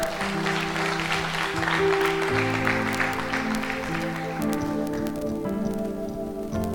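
A church audience applauds to acclaim the Lord, a dense, steady patter of clapping that runs alongside sustained keyboard chords and continues throughout.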